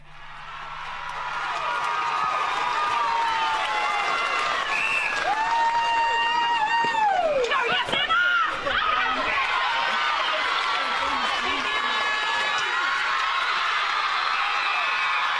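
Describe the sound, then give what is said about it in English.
Netball players celebrating a grand final win fill the air with sustained loud cheering, high-pitched shrieks and whoops, and scattered clapping. The excited voices keep going throughout. “That is the sound of the Navarre players celebrating their win”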